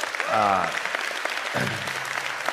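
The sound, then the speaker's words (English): Audience applause welcoming online viewers to a gathering: a steady wash of clapping runs through the whole clip while a voice speaks over it. “Would you put your hands together and welcome them?”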